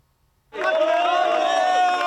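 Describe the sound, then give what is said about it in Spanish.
Cheering and applause from palace staff greeting the World Cup trophy as it arrives at Zarzuela Palace; after half a second of silence the crowd noise bursts in abruptly and stays loud and dense, with voices shouting throughout. “Así llegaba la Copa del Mundo a Zarzuela, entre vítores y aplausos de todo el personal de Palacio.”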